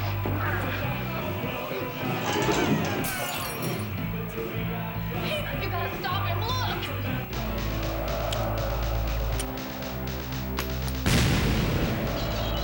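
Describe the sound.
Staged explosions on a 1988 film set make a loud, continuous roar of booms and blasts with rattling clinks, and a fresh sharp burst hits near the end.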